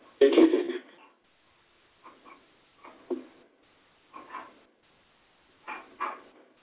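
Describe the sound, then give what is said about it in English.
Dog sounds from the speaker's own dogs in the room: a loud opening bark-like burst, then a few softer yelps or whimpers spaced out over the following seconds. “Hold on, let me get my dogs away”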